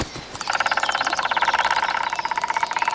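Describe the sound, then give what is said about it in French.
A male and a female woodpecker drum on a tree trunk with their beaks together, a fast, dense rattle of sharp taps that starts after a brief quiet moment and runs on steadily. “Les deux pivers, mâle et femelle, se mettent à taper du bec ensemble et à toute vitesse.”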